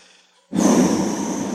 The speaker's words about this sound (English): did you do a deep breath into the mic at the same time I did?